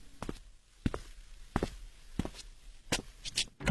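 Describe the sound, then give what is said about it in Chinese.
Footsteps approaching a door: a series of irregular, muffled thuds over quiet background, spaced unevenly at first and bunching closer together toward the end. “一阵脚步声后，门打开了”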